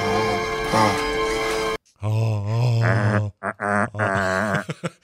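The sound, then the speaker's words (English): A man groans while he is being taken apart: drawn-out, strained voiced moans with wavering pitch and short breaks, following a brief burst of dense tonal sound at the start. “This is some groaning while he's getting taken apart.”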